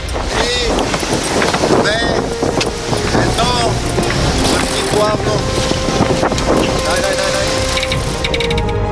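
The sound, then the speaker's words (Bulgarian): A sailing yacht under way on the open sea in the wind, cruising from Varna to Burgas after a regatta, gives a steady, full rush of wind and water with some creaking mechanical sounds. Voices come through at times. “Ветроходното състезание приключи и ние поемаме на едно много приятно плаване от Варна към Бургас, 55 мили, в изключително приятна среда.”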